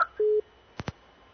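Telephone busy tone after a dropped call on a phone-in line: one steady, mid-pitched beep, followed by two short, sharp clicks.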